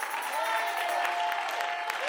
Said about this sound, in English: Bless God, I'm going to start clapping my hands.